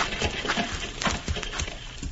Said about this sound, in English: help them horses. You go stand by them. Make sure they don't bolt. They won't bolt.